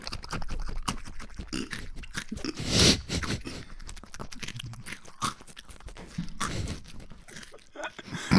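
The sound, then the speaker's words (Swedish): Crunchy chewing comes from two people munching nuts and imitating hamsters, a dense run of many crisp bites and grinding chews that continues throughout, with one louder crunch partway through. “Om du tar en nöt och så tar jag en nöt och så tuggar vi som att vi är två hamstrar i en bur.”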